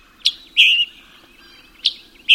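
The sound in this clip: Scarlet tanager song from a male bird in mature forest: four short, bright, high chirping notes in two spaced pairs, with faint hiss between them and no talk.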